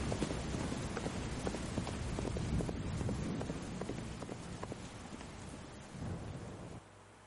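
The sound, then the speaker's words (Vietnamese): A horse gallops hard through heavy rain and wind at night. Quick, irregular hoofbeats blend into a dense, steady roar of rain with deep rumbling, and the clatter fades somewhat toward the end. “dắt Hắc công tử ra khỏi nhà đá, lên ngựa giật cương phi như bay trong đêm mưa”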